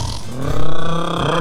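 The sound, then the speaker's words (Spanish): A voice imitates snoring with one drawn-out, rough, grunting rasp that swells in the middle and trails off, heard alone. “Roncando.”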